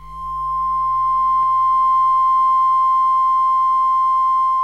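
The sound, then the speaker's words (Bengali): A radio transmitter's test tone: one steady, pure mid-pitched sine tone that holds loud and unchanging throughout, with a brief click early on and a low hum underneath. “এই তো tone পাচ্ছি, এইবার বাজবে signature tune.”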